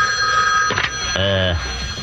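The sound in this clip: A telephone rings after a toll-free number is dialed: one short, loud, bright ringing burst over a faint steady background hum.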